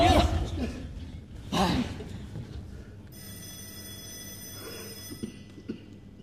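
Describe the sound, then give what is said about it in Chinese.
A telephone rings in a staged drama scene, a bright, steady electronic tone with many overtones lasting about two seconds. It comes after loud voices at the start, and faint talk continues beneath it. “耳朵聋了，接电话。”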